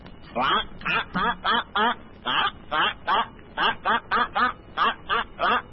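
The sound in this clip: A duck quacks in a rapid, regular series of many short, nasal calls, fairly loud and steady in rhythm, with brief gaps between them.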